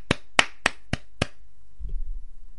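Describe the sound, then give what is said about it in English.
Five sharp hand claps from a single pair of hands, evenly spaced and crisp, followed by quiet. “But I'll give this man a small applause”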